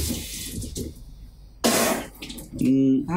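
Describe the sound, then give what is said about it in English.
A person vocally imitates a running sink whose water pressure suddenly increases: a soft breathy hiss, a pause, then a louder, fuller rushing hiss, followed by a short voiced sound at the end. “It sounds like the sink's running. It sounds like the sink all of a sudden, like, the pressure just gets a lot more.”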